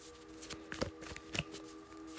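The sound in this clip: Tarot cards being handled during a reading: a soft, faint flicking and rustling of cards in quick, irregular touches over a low steady hum.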